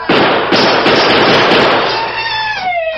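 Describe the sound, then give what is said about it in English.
Gunshot from a silver-mounted revolver fired at a cluster of bottles on a table: two loud, sharp blasts close together, then a long, harsh, noisy wash that slowly fades and ends in a falling tone. “The Lone Ranger unholstered one of his silver-mounted guns and aimed at a cluster of bottles on a large table in the center of the room.”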